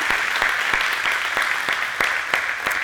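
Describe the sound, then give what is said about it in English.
An audience claps through a church service, a dense and steady patter of applause that stays even from start to finish. “put your hands together. Let's welcome everyone watching online for this service.”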